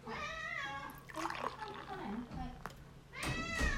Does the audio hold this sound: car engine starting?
no